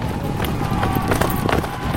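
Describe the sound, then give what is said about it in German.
Shaggy horses of a medieval Mongol army gallop in from the steppe, their hooves making many quick, loud thudding beats in an uneven, driving rhythm across the short burst. “Auf struppigen Pferden donnern sie heran.”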